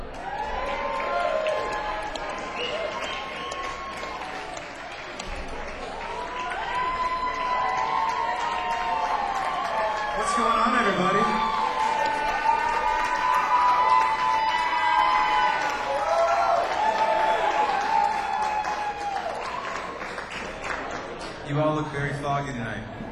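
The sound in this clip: An audience cheering and applauding to welcome a performer to the stage at a live music venue, a sustained roar with whoops and voices that swells in the middle.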